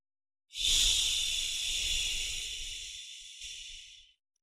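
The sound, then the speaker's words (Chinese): Sustained breathy hiss of a slow exhale shaped into a 'xi' sound during a breathing exercise. It starts firmly, then thins gradually over about three and a half seconds before cutting off. “嘴里要发出吸的发音。 呼的时候要发吸的音。 哎，就是缓慢的呼气”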